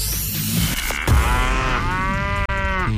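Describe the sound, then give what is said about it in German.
A cow moo sound effect serves as the signal for a radio contest. One long, loud, drawn-out bovine moo dominates, preceded by a brief murmur of other sound. “Achtet einfach auf das Enjoy-Mu-Geräusch bei uns im Programm. Nochmal zur Erinnerung, so klingt's.”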